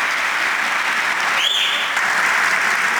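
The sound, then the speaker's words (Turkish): Long applause in a parliament chamber: many hands clapping in a dense, even roar that holds steady without breaks or individual claps standing out. “Uzun süre alkışlanan Bekir Bozdağ böylece Meclis Grup Başkan Vekilliği görevine veda etmiş oldu.”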